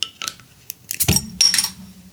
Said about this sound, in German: Also Achtung, ich öffne das Bier.